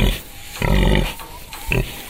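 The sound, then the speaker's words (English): Guttural grunting from a pig, several short rough grunts in a few bursts with brief gaps between them, fairly loud and with no talk over them. “And how even the guttural grunting of a pig can reveal a whole other world.”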